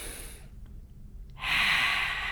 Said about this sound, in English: I just breathe long, deep breaths in through my nose, exhale through my mouth.